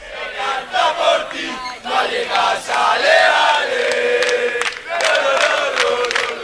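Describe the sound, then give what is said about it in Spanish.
Rayo Vallecano football supporters chanting and cheering in Leipzig around the Conference League final: a large crowd of voices singing together in sustained, rhythmic surges, loud throughout. “sigue animando la afición del Rayo Vallecano”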